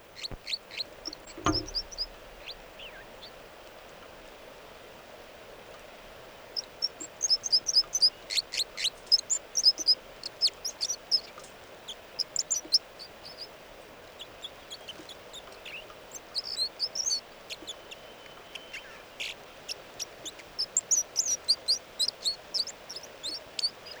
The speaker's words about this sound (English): And these are the vocalizations of song of bird 305.